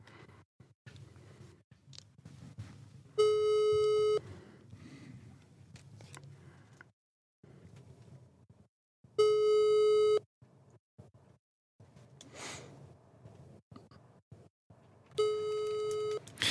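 A telephone tone sounds after someone is called: three long, steady mid-pitched tones spaced about six seconds apart, with faint rustling and small handling noises between them.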